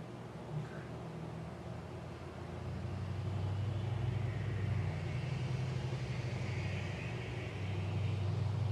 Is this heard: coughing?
no

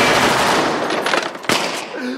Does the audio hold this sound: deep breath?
no

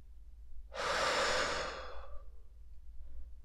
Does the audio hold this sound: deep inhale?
yes

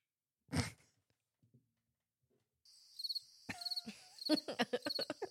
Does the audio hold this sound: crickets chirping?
yes

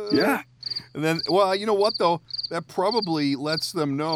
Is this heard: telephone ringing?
no

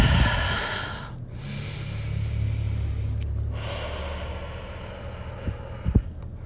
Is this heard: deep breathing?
yes

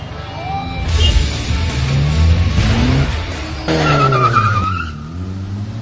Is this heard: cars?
yes

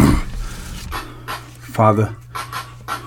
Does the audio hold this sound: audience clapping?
no

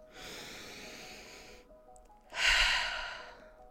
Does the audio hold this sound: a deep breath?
yes

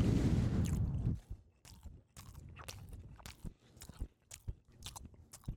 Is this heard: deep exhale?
no

